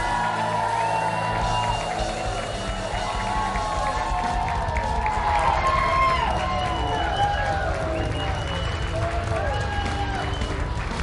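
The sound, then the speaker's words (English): Audience cheering and applauding as a guest is welcomed before a live crowd. A dense, steady roar of clapping is mixed with whoops throughout and stays loud from start to end. “Ladies and gentlemen, please give a warm Packers Live welcome to the pride of Seneca Valley.”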